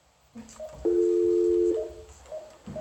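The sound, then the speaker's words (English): A telephone is dialed: one sustained, steady two-tone beep lasting under a second stands out, with fainter short beeps before and after it, all fairly quiet. “She's dialing you right now.”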